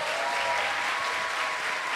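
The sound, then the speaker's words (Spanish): Audience applause for a guest on a comedy talk show, a dense, even wash of clapping that holds steady and fairly loud for the whole stretch, with no voices on top. “¡Aplausos para la Vallecita It!”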